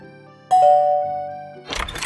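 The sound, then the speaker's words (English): A video game doorbell sounds a clear two-tone ding-dong chime. The tones hold and slowly fade, and the chime stands alone without talk. “If you ring the bell, he'll come greet you.”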